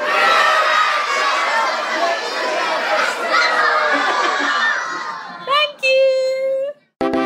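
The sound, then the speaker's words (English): A young audience of children shouts together in unison at a literary festival in Cheltenham: a loud, sustained roar of many voices. It breaks into a few short bursts near the end. “You guys have to all shout, "We're at the Cheltenham Literary Festival." Are you ready? One, two, three, go!”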